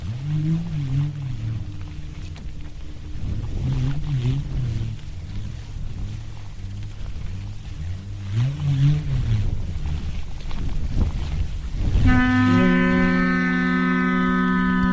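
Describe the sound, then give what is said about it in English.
A Māori pūrerehua bullroarer whirs at the launch of the Tāwhaki National Aerospace Centre, its low drone swelling and fading in waves. Near the end it gives way to a steady, reedy blast from a pūtātara conch trumpet. “Mana whenua marking today's launch of the Tāwhaki National Aerospace Centre with the sound of the pūrerehua and the pūtātara.”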